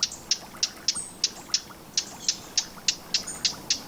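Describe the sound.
A bird gives a dry, hard call like two pebbles knocked together. Thirteen short, sharp, high clicks repeat in a steady, even rhythm, faint over a quiet background.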